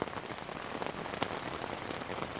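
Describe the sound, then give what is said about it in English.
Steady rain beats on a tent roof at a wild hillside campsite in Portugal during a cycling trip, a dense, continuous crackling patter of countless drops with a few louder splats, unbroken throughout. “Like an endless vat of popcorn being popped, the rain beats against our tent. Occasional heavy gusts of wind add to the symphony.”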